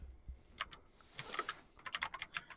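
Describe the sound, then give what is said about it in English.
Typing on a computer keyboard: quick bursts of light plastic key clicks, a short run, a brief pause, then a faster, denser flurry of taps near the end. “Sorry, I'm typing this.”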